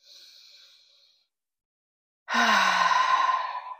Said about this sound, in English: So we're going to take our first deep breath.